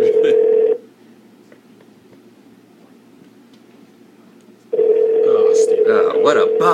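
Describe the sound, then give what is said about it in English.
A telephone ringback tone plays while a call waits to be answered: one steady, medium-low tone, then a pause of about four seconds with faint hiss, then the tone returns with other busy sounds layered over it. “How come nobody has playback ringtones anymore? Steve Ergo will pick up.”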